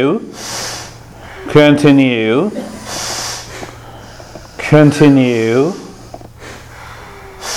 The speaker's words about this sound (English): Long, hissing breath, and the fast breath, please